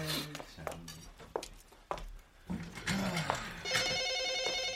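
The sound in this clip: A telephone rings with a sustained electronic trilling tone that starts near the end, after a stretch of brief voices and light knocks.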